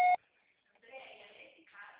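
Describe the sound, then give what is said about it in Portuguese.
A voicemail beep on a Brazilian mobile line sounds after the recorded greeting: one short, loud, steady tone at the very start, then quiet, and then a person begins speaking. “Sua chamada está sendo encaminhada para a caixa postal e estará sujeita à cobrança após sinal. Deixe seu recado.”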